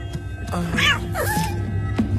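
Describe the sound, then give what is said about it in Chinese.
A cat meows a few times, with short wavering cries rising and falling in pitch, fairly loud over a low steady background hum. “你为什么养这么多猫啊？”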